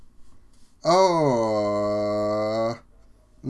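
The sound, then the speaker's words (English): A man groans in a loud, drawn-out voice lasting nearly two seconds. The pitch dips briefly at the start, then holds level before it stops, with quiet stretches on either side. “Dude, groaning on air is not...”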